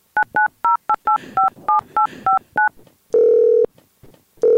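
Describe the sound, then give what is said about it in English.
A telephone number is dialed on touch-tones: ten quick, evenly spaced beeps, followed by a longer, lower steady tone that starts to repeat. “All right, let's call Craig Rando again.”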